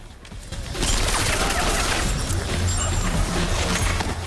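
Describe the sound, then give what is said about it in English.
Gunfire as men open fire on a guard at the end of a corridor during a raid. After a quieter start, a dense, continuous rattle builds and stays loud and unbroken to the end. “A guard appears at the end of the corridor and the men open fire.”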